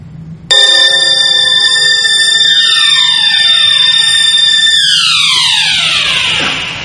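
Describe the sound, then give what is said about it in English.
Alarm clock ringing in a scene set in 1949: a sudden loud, steady bright ring with dense high harmonics starts after a brief pause, holds unbroken for about six seconds, then fades out at the end. “Starts with an alarm clock.”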